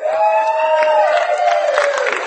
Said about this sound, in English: So, Mark informed me that before we came out that everyone here has to clap like there's three people this evening.